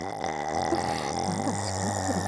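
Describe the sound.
A long, low, croaky burp drawn out for about two seconds, steady and fairly quiet.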